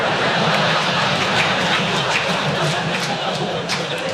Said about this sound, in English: the tower's telling us to hold, but you might notice I'm rumbling along the grass.